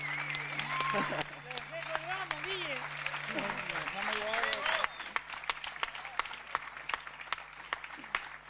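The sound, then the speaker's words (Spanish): Applause for a group of guys, heard as many separate sharp claps scattered across the whole stretch, with people talking over them for the first half before the claps carry on more sparsely. “Fuerte ese aplauso para los pibes, los viendo acá, por favor.”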